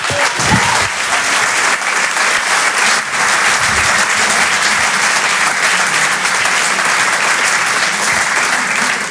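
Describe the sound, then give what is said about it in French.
A comedy show audience applauds loudly as the next stand-up comedian is welcomed to the stage. The thick, continuous clapping stays at an even, strong level throughout. “Faites du bruit, s'il vous plaît, pour Jérémy Lorca.”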